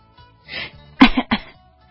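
Two sharp, quick coughs in close succession, preceded by a softer breathy throat sound, with quiet around them.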